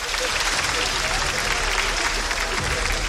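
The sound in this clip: Audience applause answering a call for the women present to clap again, a dense and steady wash of clapping that runs the whole time with voices mixed in.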